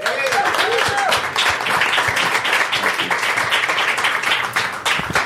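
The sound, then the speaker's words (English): Audience applause welcoming a progressive candidate onto the stage at a first-anniversary show: dense, sustained clapping that carries on steadily throughout, with a voice audible briefly near the start. “Please make some noise for Amara Enya.”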